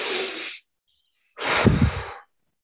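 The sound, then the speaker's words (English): Deep breaths taken during a guided grounding meditation: two long, airy breath sounds, the second slightly fuller, separated by a silent pause, with no talk. “So take three breaths”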